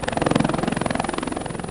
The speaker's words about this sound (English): Air Force helicopters deliver food.